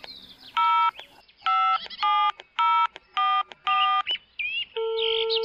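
Telephone keypad tones as a number is dialed: a rapid run of short, evenly spaced beeps, then a longer, steady tone at the end.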